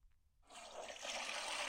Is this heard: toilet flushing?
yes